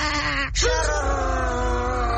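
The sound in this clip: Call of the heglada bird: a loud, sustained wailing cry rich in harmonics that breaks off briefly near the start, then resumes and holds steady to the end.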